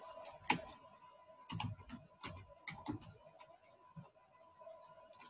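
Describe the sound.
Computer keyboard typing, sparse and irregular keystrokes in short clusters, crisp, clicky taps with pauses between them, fairly quiet.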